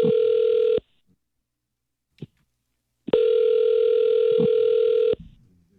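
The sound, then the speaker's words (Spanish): A telephone ringing on an outgoing call: two loud, steady electronic ringback tones about two seconds apart, with a brief click between them and a faint voice at the end. “¿Le puedo llamar, ¿verdad? Ya está sonando.”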